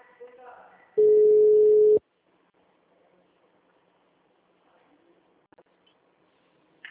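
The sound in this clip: Telephone busy tone after a dropped call: one steady, pure, mid-pitched beep lasting about a second, followed by near silence with a few faint clicks.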